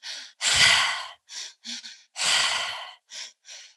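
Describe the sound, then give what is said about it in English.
Mouth breathing in a tri-active pattern, drawn into the belly, up into the chest and out through the mouth. Airy, rushing breaths in a steady rhythm: two long, loud breaths with several shorter, softer ones between and after. “the breath pattern is called the tri-active breath. It is only through the mouth, so into the belly, up into the chest, and out through the mouth. So it sounds like this.”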